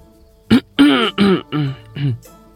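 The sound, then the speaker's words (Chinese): A staged cough in an audio drama, heard as a run of throat-clearing coughs: five short voiced bursts in quick succession, loud and alone. “展昭再一次咳嗽”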